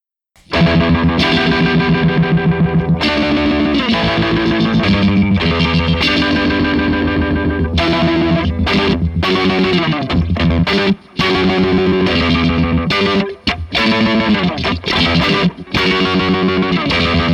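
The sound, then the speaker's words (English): Electric guitar played through an effects pedal with pitch modulation pushed to its fastest speed, a loud, continuous distorted tone with a subtle rapid wobble and changing chords, alone without talk. “There's a pitch modulation going on, although subtle.”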